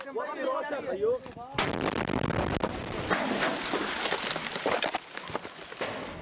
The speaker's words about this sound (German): Dann schlägt eine Granate ein.